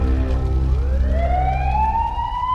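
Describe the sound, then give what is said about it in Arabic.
An ambulance siren wails at an accident scene, one loud continuous tone sweeping steadily upward in pitch over a low traffic rumble. “في ترابة الأحداث الأمبولانس خلطت والإسعاف هزوا إيميلي”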